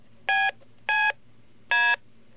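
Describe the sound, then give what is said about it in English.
Three touch-tone keypad beeps, each a steady dual-pitched tone burst of about a quarter second, separated by short pauses of roughly half a second, over a faint low hum. “They sound like touch tones, and in fact they're very closely related to touch tones.”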